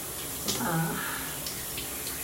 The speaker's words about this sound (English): I'm like under a little waterfall here,